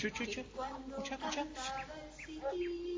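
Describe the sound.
A small bird sings in short, bright chirps with quick upward sweeps, a few of them spaced out near the end, mixed in with people talking.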